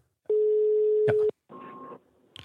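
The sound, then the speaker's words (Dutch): Telephone ringback tone while a call is being placed: one steady, mid-pitched beep lasting about a second, then a shorter, higher and buzzier tone after a brief gap, with no voices. “volgens mij moeten we even iemand bellen”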